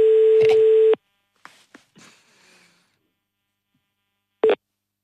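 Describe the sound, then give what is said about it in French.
Ringback tone on an outgoing telephone call: one steady, clear tone lasting about a second, then near-silence with a few faint clicks, and the next tone starting just before the end. “Ça sonne aujourd'hui, on va du côté de Strasbourg.”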